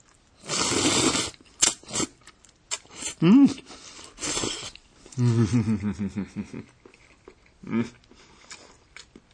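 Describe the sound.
Eating sounds from someone tasting a silky, pure white food, with a few noisy bursts of chewing and slurping and several hummed, appreciative voice tones between them.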